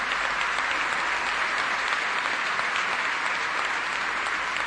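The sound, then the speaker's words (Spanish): Dense, steady applause from an audience for the workers of a cooperative, a loud even wash of clapping that continues without a break and with no talk over it. “un aplauso porque se lo merecen realmente. Un gran aplauso para la gente de la cooperativa Renacer.”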